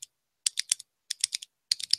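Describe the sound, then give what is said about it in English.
Repetitive typing on a computer keyboard: crisp, clicky keystrokes come in three quick bursts of several presses each, repeating a similar pattern, alone and with no voices. “I have one coworker who does something repetitively where you hear the same pattern of keys, like,”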